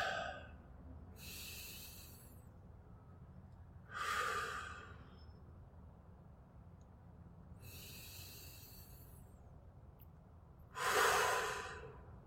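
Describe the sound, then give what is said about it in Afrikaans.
Slow, deep breaths during a guided breathing exercise: four long, airy breaths spaced roughly three seconds apart, two of them noticeably louder and rougher, heard alone without talking over a faint, steady low background noise. “Sit saam met my. Haal 'n paar keer lekker diep asem.”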